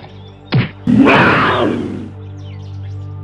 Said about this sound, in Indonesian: Akan aku lempar harimau itu dengan batu.